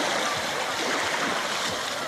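Water sloshing and surf as horses wade into the sea after a game of cirit, mounted javelin. A steady, broad wash of splashing noise runs throughout, with a few soft low swishes beneath it.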